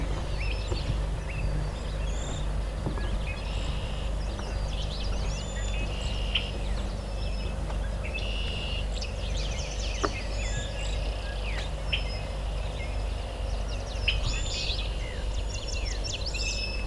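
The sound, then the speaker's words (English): A willow flycatcher sings at a lake in June, with short, high, buzzy chirps repeating throughout over a steady low background rumble, faint and without talk. “Willow flycatcher over here. Fitzbew.”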